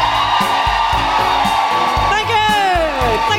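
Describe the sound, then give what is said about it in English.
An audience at a live comedy show in Belfast whoops and cheers loudly and continuously, with rising and falling woohoo calls over a steady roar of voices. “Put your hands together. And make incredible guilty feminists welcoming woohooing noises for Nuala McKeever!”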